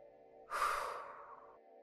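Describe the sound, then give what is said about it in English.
A full exhale through the mouth during a breathing exercise: one long, breathy whoosh of air lasting about a second, rising quickly and then fading, over a faint steady background tone. “So we're going to start by exhaling totally through the mouth, like this.”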